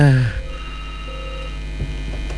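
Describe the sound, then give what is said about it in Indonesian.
A telephone line picks up the next caller. A brief, loud tone cuts off abruptly and gives way to a steady low hum from the open line. “Oke, kita angkat penelpon berikutnya.”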